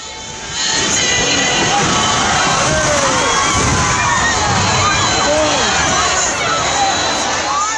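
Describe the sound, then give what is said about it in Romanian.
Crowd screaming in panic as a 200-year-old oak tree falls onto people during an outdoor religious festival. Loud, continuous shrieks and shouts swell in after a quieter opening and hold steady to the end. “În înregistrările postate pe internet se aud țipetele de panică ale oamenilor și se poate observa cum stejarul vechi de 200 de ani cade pe mulțime.”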